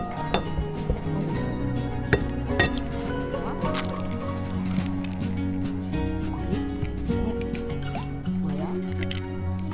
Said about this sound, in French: Et vas-y, on casse l'œuf. On frappe un grand coup.